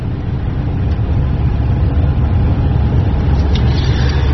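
Steady, fairly loud low rumble of a car being driven through Seville at night, engine and road noise continuous throughout with no voices.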